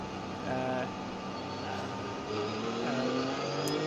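A Carrera Cup 2 class race car, number 101, roars during the VLN Ruhr-Pokal endurance race. A sustained, tonal engine drone swells slightly twice and stays loud and steady.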